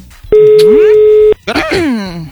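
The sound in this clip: An outgoing telephone call gives a ringing tone: one steady electronic beep lasting about a second. A voice starts speaking right after it.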